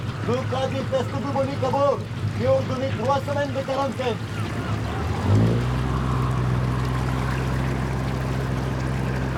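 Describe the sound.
Engine drone of a motor launch, a patrol boat, approaching on water: a steady low hum that starts partway through and continues to the end, after a stretch of people talking.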